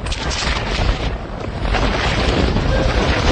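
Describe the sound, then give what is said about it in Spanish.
Strong wind roars and buffets the microphone in Antarctica at thirty below zero, with gusts up to 135 km/h whipping an Argentine flag, a loud, continuous rushing that swells slightly partway through, with no talk. “Ahí se escucha como... El viento que había, ¿no? Claro. El viento hacía flamear una bandera de Argentina apenas terminaba el partido.”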